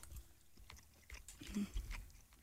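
People quietly chew a soft homemade beef patty, with faint, moist mouth sounds and a few soft bites and smacks at low volume.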